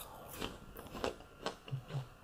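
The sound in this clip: Someone bites into and chews a crisp, freshly picked apple, producing a few sharp, moist crunches at irregular intervals. The sounds are quiet and close, with no talking.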